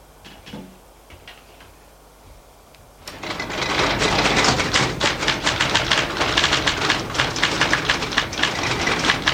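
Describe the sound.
Typing on a typewriter begins after a quiet stretch with a few faint taps. Rapid, loud key strikes then clatter in an uneven, steady stream to the end.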